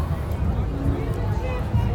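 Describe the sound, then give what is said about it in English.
Crowd babble fills a busy, packed fair, a continuous murmur of many overlapping voices with one voice speaking over it. “there is something about the crowds, and it is a very, very packed fair this year I've noticed. It is a little bit busier than previous years.”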